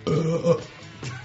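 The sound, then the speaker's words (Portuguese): A person burps, giving a drawn-out, low, croaky belch that stands alone with no talk over it. “Então quer dizer que você entende o que o arroto representa? Sim. Então me traduz esse aqui, ó.”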